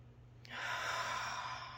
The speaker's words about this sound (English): let's start by taking some deep breaths in through the nose.